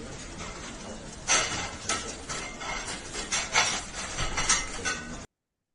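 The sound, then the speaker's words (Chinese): Dishes and cutlery clink and clatter in a kitchen as they are washed, making a run of irregular, bright knocks and rattles that stops abruptly. “我在后厨刷盘子多日。”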